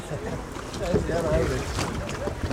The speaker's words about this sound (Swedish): Där trycker hon iväg alltså, och står på knä när hon kör den här. Och sen så ska den nog gå upp i planande läge, meningen. Och då svävar man kanske en halv meter ovanför vattenytan.